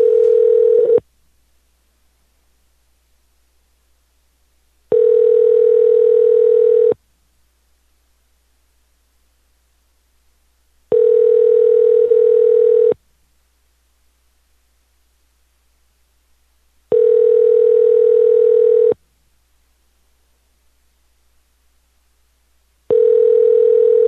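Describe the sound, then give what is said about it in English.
Telephone ringback tone heard while placing a call to a cell phone: a steady mid-pitched tone repeating in roughly two-second bursts with about four seconds of silence between, the first and last bursts cut short. “Calling Ken.”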